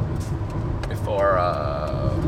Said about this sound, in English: Sorry, I'm taking a turn here as we're driving.